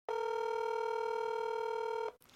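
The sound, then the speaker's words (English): A telephone tone while dialing a call: a single loud, steady buzzing tone that holds for about two seconds and then cuts off abruptly. “So let's ring Joanna and see if I can get her out of bed.”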